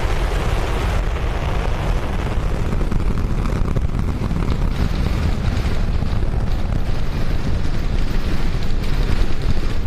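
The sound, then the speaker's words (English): Launch of a SpaceX Starship rocket with 33 Raptor engines, a dense, loud, continuous roar heavy in low rumble with a crackling texture, staying steady and powerful throughout. “Elon Musk's SpaceX just launched the world's most powerful rocket, Starship. Look at that. Bigger than a football field, strapped with 33 Raptor engines, unleashing 18 million pounds of thrust,”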